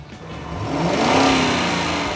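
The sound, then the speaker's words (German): A car engine revs and accelerates as vehicles leave one by one from a line, each guided out left to right; a loud, steady swell of engine roar that builds and holds, with no voices. “Das sieht alles ziemlich lustig aus, wie die Autos so alle in einer Reihe wegfahren. Also es, man wird von links nach rechts rausgelotst, jeder einzeln.”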